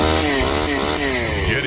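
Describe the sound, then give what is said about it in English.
Engine of an old, worn leaf blower running: a raspy, buzzing small-engine drone whose revs waver up and down throughout, steady and fairly loud, with no talk. “it might be time to upgrade your leaf blower. The one you have has seen better days.”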